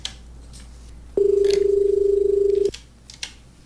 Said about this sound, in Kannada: ಮತ್ತೆ ಒಂದು ಕರೆ ಇದೆ, ತೆಗೆದುಕೊಳ್ಳೋಣ